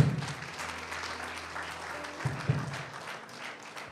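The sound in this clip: Applause from an audience at a Spanish-language church service, a dense, steady wash of clapping that holds for the whole stretch with a low hum underneath and no talk.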